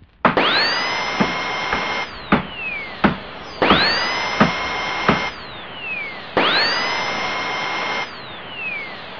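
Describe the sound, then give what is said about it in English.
A power drill bores through a computer hard drive in three long whining bursts. Each burst climbs in pitch as it spins up and holds a steady high tone, with sharp clicks and knocks between the bursts. “Drilled right through the f***ing bastard's hard drive.”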